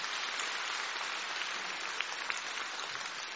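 Faint applause forms a steady, even wash of clapping for about three seconds, with a couple of slightly sharper claps poking out near the end.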